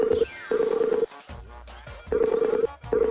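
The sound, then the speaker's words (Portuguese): Phone tones as a telephone call is placed: several steady mid-pitched tone bursts separated by short gaps, with brief noisy sounds between them. “Falando em dinheiro, peraí que eu vou ligar pro senhor K.”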